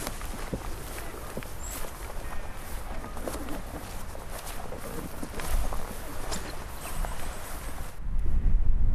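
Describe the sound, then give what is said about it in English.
Footsteps of people walking down outdoors near a lake, a steady shuffle of many footfalls on rough ground under constant breezy noise, growing a little louder near the end. “We might walk down a bit now, okay, just so we can see a bit.”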